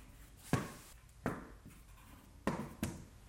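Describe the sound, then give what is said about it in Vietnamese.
A pen scratches across paper, writing out a translation by hand: four faint, brief strokes spaced irregularly over a quiet, hissing background. “Thế này mình chép bản dịch”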